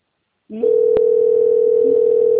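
A telephone call waits to connect, with a steady single-pitch line tone that starts after a brief low onset and holds unbroken at an even level, with no talk.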